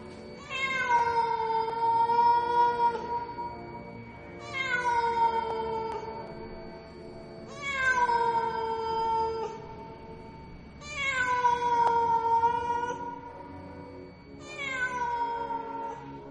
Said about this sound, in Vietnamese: Từ đâu đây vọng lên một tiếng mèo kêu, nghe thảm thiết trong đêm tối.